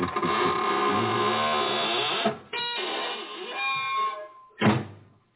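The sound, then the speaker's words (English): A squeaking door creaks as it is closed, giving a long, wavering groan whose tones slide up and down, broken by a short pause and ending in a solid thump. “Now it's time to close the squeaking door”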